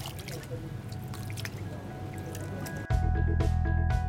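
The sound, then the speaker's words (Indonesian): Water splashes and drips as frozen kupang shellfish are soaked, with a busy wet trickle and squish that switches to a louder, steadier rush of water. “Masih beku jadi harus direndam untuk beberapa saat sampai ini bisa diolah lagi dan dipilihin untuk kotoran-kotorannya dipisah. Kita rendam lagi ya Mbak ya?”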